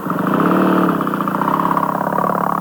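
A motorcycle rides off with a loud, steady, rough mid-pitched engine drone that has a slight pulsing texture.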